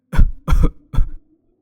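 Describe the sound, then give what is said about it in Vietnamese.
Violent, harsh coughing from an old woman: three loud, rough bursts in quick succession, each roughly a third of a second long, with no other sound around them. “Một tràng ho dữ dội như rút hết không khí của người phụ nữ già nua vang lên.”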